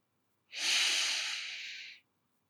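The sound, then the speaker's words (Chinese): A single slow, deep inhale through the nose during a guided relaxation exercise, a soft, steady breathy hiss lasting about a second and a half, heard alone. “闭上双眼，轻轻的用鼻子。慢慢的、深深的吸气，数到四，”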